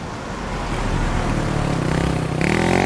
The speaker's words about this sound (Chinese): 突然一辆车开过来了，后面还跟着一辆摩托。